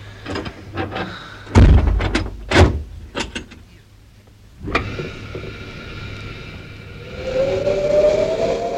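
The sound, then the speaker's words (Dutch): A vehicle canopy being shut during a drive near the equator: several heavy clunks and rattling knocks, with the loudest slam in the middle, followed by a steady motor hum and a rising whine. “Ik doe de kap weer dicht.”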